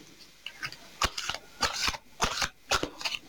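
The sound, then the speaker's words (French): Playing cards shuffled during a card reading: a few quick bursts of crisp riffling snaps and flutters, separated by short pauses. “avant que je tire une carte pour vous, j'en prends juste une.”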